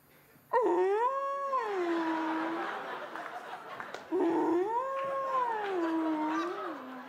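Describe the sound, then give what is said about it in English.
A man's voice imitates a blue whale call, producing two long, low, moaning 'ooh' sounds separated by a brief pause. Each one swoops upward, then sinks and holds. “I like you like blue whales like to say,”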